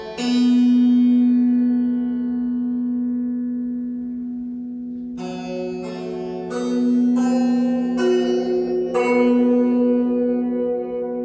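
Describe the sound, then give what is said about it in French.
A gong with strings stretched across it hums with one long, low, sustained metallic tone. Then several struck string notes ring out over it one after another, each with a bright attack that slowly fades. “Tu sais ce que c'est C'est un gong. mais pas n'importe quel gong. Un gong sur lequel on a tendu des cordes,”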